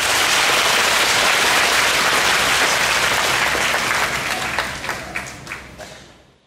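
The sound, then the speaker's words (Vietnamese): Loud, dense applause from an audience of children at a summer retreat talk, which thins near the end into a few scattered claps before stopping. “Đúng rồi, cho một tràng pháo tay.”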